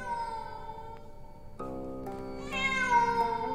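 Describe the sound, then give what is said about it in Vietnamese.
A cat meows plaintively in the distance: one long, drawn-out, wailing cry that swells and rises in pitch partway through, then holds to the end. “bất chợt ở đằng xa, đâu đó văng vẳng lên trong không gian tiếng con mèo kêu. Con mèo kêu lên vô cùng thê thiết.”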